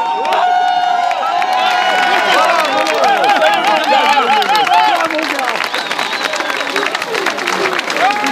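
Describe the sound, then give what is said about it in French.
Dozens of socialist supporters cheer and applaud as three victorious election candidates arrive, a dense, continuous roar of clapping, shouts and overlapping raised voices that stays loud throughout. “C'est désormais chose faite et cela se matérialise avec l'arrivée des trois candidats victorieux, accueillis par des dizaines de sympathisants.”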